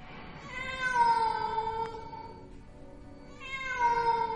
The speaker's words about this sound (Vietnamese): Bỗng nhiên một tiếng mèo kêu não nùng vang lên trong đêm vắng.